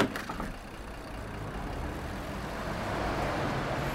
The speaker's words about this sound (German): Autos. Vierspurige Straße, direkt Bushaltestelle unterm Fenster.